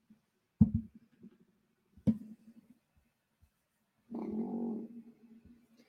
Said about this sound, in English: More of a deep bellow than like an actual roar.